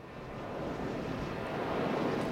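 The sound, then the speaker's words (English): A big wind turbine near Spearville in western Kansas gives a low, steady whooshing roar that swells slightly as it goes on, with no voices. “Out in western Kansas, big wind turbines like this one near Spearville produce lots of electricity”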